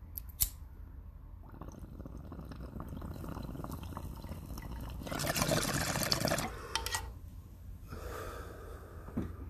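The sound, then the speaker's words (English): Someone takes a long hit of smoke: a sharp click near the start, then a steady airy draw that swells into a louder, watery rushing stretch partway through before easing back to quiet breathing. “I'm taking another hit. You guys are going to listen to another hit.”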